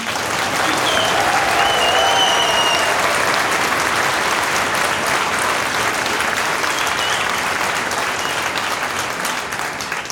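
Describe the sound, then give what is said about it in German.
Audience applause fills a university hall at a journalism festival in Innsbruck: a dense, steady wash of many hands clapping at an even, loud level for about ten seconds. “Vielleicht können Sie sich hier einmal kurz bemerkbar machen, dass man später auch in der Folge hört, wie viele Leute heute hier sind.”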